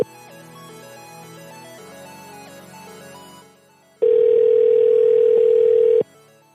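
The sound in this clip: A telephone call ringing out. A short electronic melody plays first, then one loud, steady ringing tone holds for about two seconds before cutting off. Nobody speaks.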